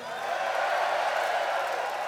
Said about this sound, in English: Give yourselves a fucking cheer.